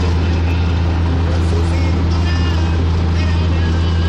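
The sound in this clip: A pickup truck drives with a loud, constant low engine rumble and steady road noise that holds evenly throughout.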